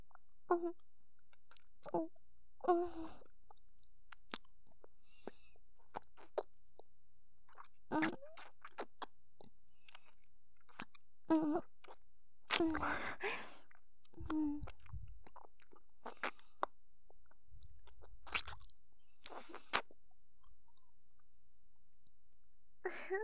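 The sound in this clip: Mouth sounds of nibbling and eating an ear: quiet, sparse wet clicks, smacks and chewing noises scattered across a near-silent background, with a few slightly longer crunchy bursts in the middle.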